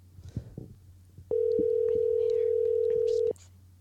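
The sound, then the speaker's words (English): A phone call rings out as a single long, steady mid-pitched ringback tone lasting about two seconds, over a low constant hum and a few faint scattered sounds. “You know what? I'm going to call this girl.”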